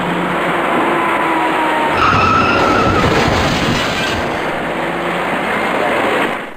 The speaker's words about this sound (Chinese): 行驶在前面的车辆稳稳地减慢了车速，可从后方快速驶来的一辆深色小客却毫无措施地猛然撞上了前面的面包车